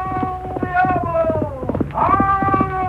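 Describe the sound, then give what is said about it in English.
Hooves of a black horse galloping flat out in the lead of a race, rapid steady beats running beneath a sustained tonal line that bends in pitch partway through. “The black horse in the lead answered his master's call with every ounce of strength he could summon.”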